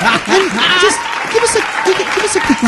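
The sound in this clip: A live audience applauds in a steady patter of clapping that runs beneath a person talking, moderately loud throughout.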